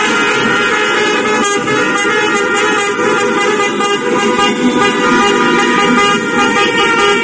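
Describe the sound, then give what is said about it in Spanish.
Car horns honk through street celebrations after Spain's World Cup win: loud, dense, continuous toots and blaring horns overlap with engine and traffic noise, with no pause. “Los sonidos que seguro han escuchado tras las celebraciones de la Copa del Mundo que ha logrado España”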